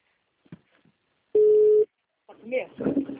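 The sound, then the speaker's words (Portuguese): A telephone ringing tone on an outgoing call: one short, steady, mid-pitched tone of about half a second, preceded by faint clicks and followed by a person starting to talk. “Está chamando.”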